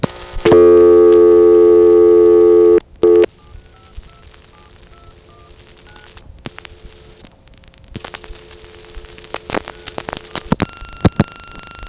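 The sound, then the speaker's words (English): Telephone dialing into the 115 operator code at a small toll center: a loud, steady tone for about two seconds, a short burst of dialed tones, then a quieter, noisy trunk line with power-supply hum, static and scattered clicks. “Here's what happened when I dialed 115.”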